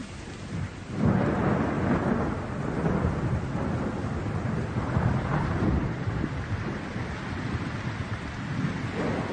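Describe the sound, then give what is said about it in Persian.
Raindrops fall into a hospital pool. A dense, steady hiss of rain with a low rumbling undertone starts abruptly after about a second and holds at an even level to the end. “قطرات باران در حوض بیمارستان.”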